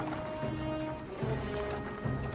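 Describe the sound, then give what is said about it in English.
Hooves of several horses carrying riders onto overgrown grounds make a faint, steady, muffled clatter of clopping beats that runs through the whole clip. “Horses. Now men on horseback ride onto the overgrown grounds of Talbot Hall.”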